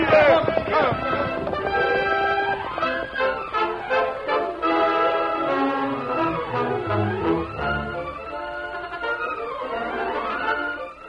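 Galloping horses' hoofbeats from several mounts and a steady rider's horse, set under loud, swelling orchestral music that dominates throughout with no pauses.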